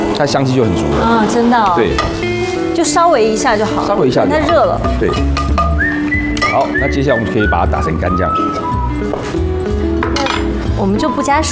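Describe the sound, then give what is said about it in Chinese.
Freshly washed, still-damp rosemary sizzles while it toasts in a pan, with steady stirring and clinks of cookware and utensils. People talk over the constant frying hiss. “这边是迷迭香，稍微让它烘一下”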